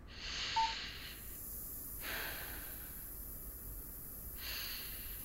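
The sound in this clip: Deep breaths drawn through an oxygen therapy machine's nose piece: a few soft, hissing inhalations and exhalations, faint and separated by quiet gaps, with no talking.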